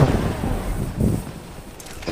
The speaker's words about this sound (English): I got a shotgun. I'm not afraid to use it.